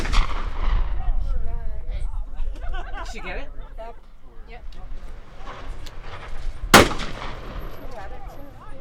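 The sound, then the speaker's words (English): Gunshots at a shooting range where women are coached by wildlife officers: one sharp, loud shot cracks out over steady talking voices, with other fainter, rougher sounds around it. “The women are fitted with guns and five make their way to the shooting range. Each has their own wildlife officer to help them with their shooting technique.”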